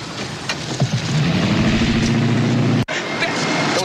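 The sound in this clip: A van engine running, giving a steady, loud low drone with a rough hum that persists throughout, broken by one sharp, brief click near the end.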